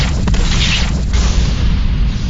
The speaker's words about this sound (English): Heavy cluster widespread photon torpedoes primed and locked on central enemy formation. Ready to launch on your command, Captain. Fire torpedoes!